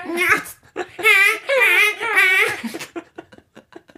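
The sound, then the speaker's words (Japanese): A person imitates a newborn baby crying: several drawn-out, wavering wails that rise and fall in pitch, then a string of shorter, choppy sobbing bursts. “この辺でまた赤ちゃん泣いたんかな”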